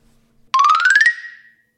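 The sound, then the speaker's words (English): Telephone ring tone heard while dialing a call: a single loud, buzzy tone that rises steadily in pitch for about half a second, then fades away after a faint low hum. “let's go ahead and dial up old Timmy Poo.”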